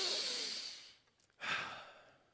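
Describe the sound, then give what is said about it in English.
An audience at a sermon takes a deep breath together: two faint, long, airy breathing swells separated by a short pause, with no talk. “On the count of three, I want everyone to take a deep breath.”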